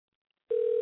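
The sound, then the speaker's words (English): A telephone line tone as a call is placed to a guest: it starts abruptly after a near-silent half second and holds one steady, loud pitch to the end. “But let's get him on the line and see what he has to say.”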